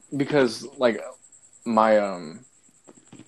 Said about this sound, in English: No, besides this fucking cricket, I'm currently in my